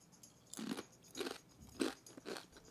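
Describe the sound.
Crunching of tortilla chips being eaten, four distinct crisp crunches spaced about half a second apart, each a short crackly burst over quiet background.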